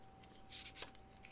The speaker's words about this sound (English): I am shuffling cards. Shuffle.